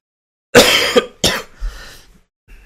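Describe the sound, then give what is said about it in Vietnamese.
Two harsh coughs in quick succession from a person with a cold and runny nose, loud and alone, followed by faint breathy throat sounds. “Ho, giờ bắt đầu chuyển qua sổ mũi rồi các bạn.”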